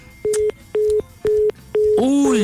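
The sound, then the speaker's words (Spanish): Telephone tones as a call to a contest participant is redialed: four short, even beeps at a steady mid pitch, regularly spaced, then a richer, louder tone cuts in at the end. “Voy a volver a marcar. Si no contesta, voy a tener que sacar otro participante.”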